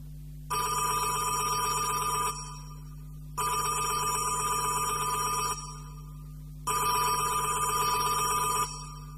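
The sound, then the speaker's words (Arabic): A telephone rings at a monastery, sounding three long, steady bursts of bright bell-like tone separated by short pauses, alone and fairly loud. “وفي يوم كان القمص مينا المتوحد في دير مريمينا بمصر القديمة وجاله تليفون.”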